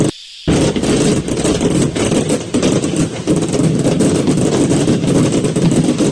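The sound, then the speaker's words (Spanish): Fireworks going off from an overturned truck, a loud, dense, continuous crackling barrage of rapid pops that starts abruptly after a brief quieter moment and keeps going. “se ve como los juegos pirotécnicos de un camión que se volteó empiezan, güey. Les voy a poner el audio para que vean de cómo este camión se volteó.”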